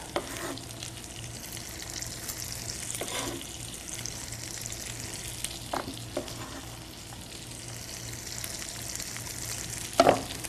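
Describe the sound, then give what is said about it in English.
Corn kernels cut off the cob sizzle in foaming butter in a pan, a steady frying hiss broken by a few scraping stirs. “I'm going to cut it off the cob. And I'm going to add it to my foaming butter.”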